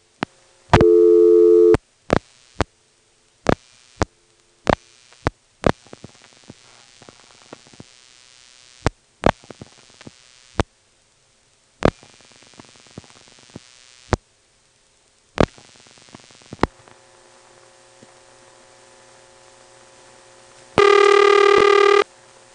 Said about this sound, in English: we're in Woodville, the local supervision test and the ringtones sound very close up. They went on carrier from where we were last. So here's the 919-264 soup test dialed from within the office.